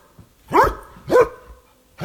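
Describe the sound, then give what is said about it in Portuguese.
A dog barks loudly and harshly: three sharp, rough barks at fairly even intervals, the last one cut short, with quiet snuffling sounds in between. “Tá latindo feio pra caramba esse cachorro, não tá?”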